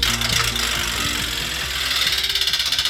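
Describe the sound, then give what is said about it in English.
A prize wheel spins with a rapid run of even clicks, like a fast wooden rattle. The clicks carry on steadily throughout and are fairly loud, with no talk over them. “when I spin the wheel. Here we go.”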